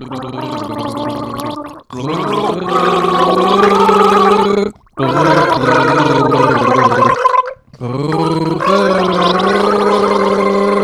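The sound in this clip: Gargling while singing the chorus of a song: a voiced, pitched, bubbling gurgle that runs in four sustained stretches separated by brief pauses, loud and steady throughout.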